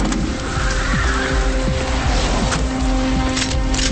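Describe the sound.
Patrol cars race up with roaring engines and repeated tire squeals. The loud vehicle noise continues without a break.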